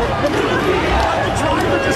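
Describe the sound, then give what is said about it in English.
Fans chanting as a UPS delivery truck pulls up, many voices blended into a loud, busy babble of shouting and chatter. “Here's the fans because a UPS truck pulls up. This is what they started chanting. They're just chanting UPS.”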